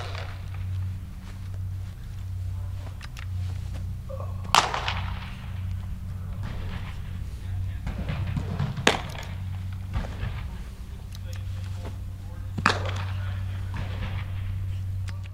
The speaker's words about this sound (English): that was the sound of two of his pitchers playing catch indoors